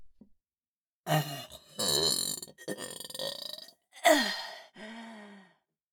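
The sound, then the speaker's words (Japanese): A crude, throaty burp sounds out in several voiced, gurgling bursts of varying length, separated by brief gaps and fairly faint overall, with no talk over it. “お下品なゲップ、こいちゃいました。”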